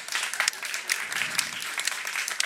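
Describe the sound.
Applause from a comedy show audience welcoming a comedian to the stage: a dense, steady wash of clapping that holds at an even level throughout.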